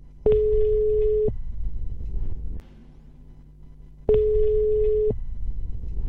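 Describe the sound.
Two steady ringback tones on a telephone line as a call connects, each lasting about a second and separated by a long pause filled with faint line hiss.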